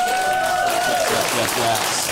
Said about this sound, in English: Let's get a round of applause for the panel.